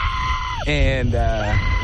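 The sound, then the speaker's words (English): A person screams while on a zipline, a shrill, wavering high-pitched cry with a bleating quality. It lasts under two seconds over a steady rushing background noise. “I know I have a scream that can get me made fun of.”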